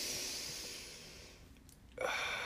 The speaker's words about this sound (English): Just take a deep breath, get into things